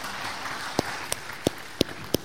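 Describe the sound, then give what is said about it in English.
A church audience applauding the band, a soft wash of clapping with five louder, sharp claps standing out at an even, steady rhythm. “Would you give the band a hand for a great job?”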